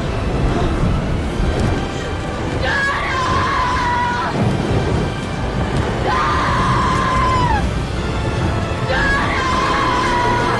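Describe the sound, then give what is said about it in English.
A woman screams three times at night, each a long, high, wavering wail lasting over a second, set against a dense, roaring background of noise that runs through the whole scene. “Her wings extend, and Eva screams down below as Lily carries Jonah into the night sky.”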